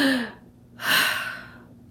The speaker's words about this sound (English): So, for example, somebody's taking a deep breath,